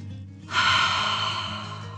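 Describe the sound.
A deep, calming breath, an airy rush of air that starts abruptly and then fades gradually over about a second and a half, with no words.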